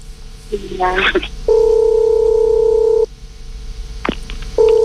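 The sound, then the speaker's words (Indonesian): Ringback tone of an outgoing telephone call to someone in Jakarta: a steady buzzing tone lasts about one and a half seconds, then after a pause the next tone starts at the end, with brief vocal sounds before and between the tones. “Coba kita langsung hubungi Kang Asep Susilo, semoga diangkat siang hari ini”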